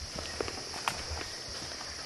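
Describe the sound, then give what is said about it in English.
Faint footsteps of someone walking on foot into the rainforest, soft irregular taps sitting low under a steady, hissing background. “To go into the rainforest from here, we could only proceed on foot.”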